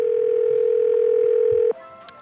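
A steady telephone tone, sounding as a call is placed to a pizzeria, holds one unbroken mid pitch for nearly two seconds, then cuts off and gives way to a few faint higher tones.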